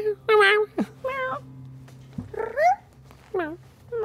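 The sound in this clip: A person imitates a cat with a series of short, nasal meows that vary in pitch, some sliding upward, separated by brief pauses.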